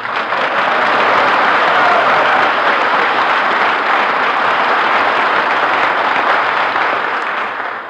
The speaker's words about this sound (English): Gee, was that applause for me?